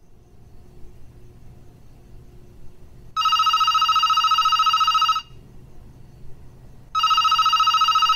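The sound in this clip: A telephone rings on an outgoing call: two bright, steady electronic rings separated by a pause, the second cut off at the end. A faint low hum sits underneath.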